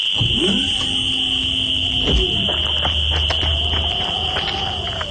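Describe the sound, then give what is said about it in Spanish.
A steady, piercing, high-pitched electronic alarm tone goes off again and rings loudly without a break in a radio drama. A few sharp knocks and a low rumble sound underneath it. “¡Otra vez la alarma esa! Está conectada con el mano. Cuando algo lo amenaza, se activa.”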